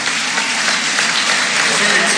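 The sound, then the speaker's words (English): Loud crowd applause rings out for the senior players at a basketball game: dense, steady clapping from many hands fills the whole stretch at an even level. “That was nice of him to do that. Yeah, to give the seniors some applause.”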